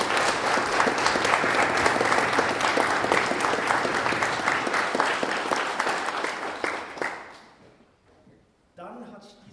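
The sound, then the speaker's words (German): Applause from a concert audience after a church choir's performance: dense, loud clapping that holds steady, then thins and fades out near the end. “Applaus”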